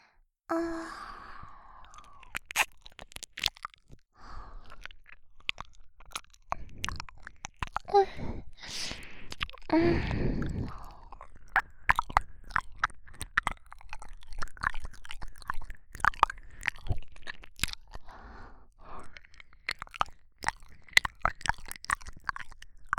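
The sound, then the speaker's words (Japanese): Wet ASMR mouth sounds of an ear being licked: many close, soft smacks, clicks and squelches come in irregular bursts, with a few breathy sighs between them. “舐めてほしそうにしてたお耳さんをペロペロしてあげます。”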